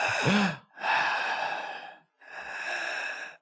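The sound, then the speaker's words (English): A voice imitating a person's breathing: three long, airy, noisy breaths separated by short pauses, the first beginning with a brief low voiced moan. “now that you're close, you can hear her breathing like that.”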